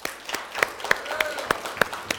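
Clapping from a church audience: a few hands strike in a loose, fairly regular rhythm, each clap sharp and distinct rather than blending into a dense roar.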